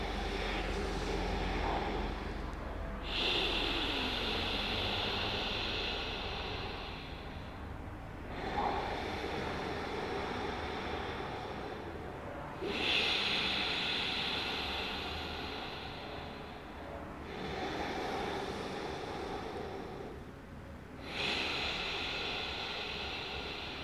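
Slow, exaggerated breathing out and in through the nose with the throat narrowed, giving a long rushing hiss. Each breath lasts several seconds, with short pauses between them, in a steady cycle.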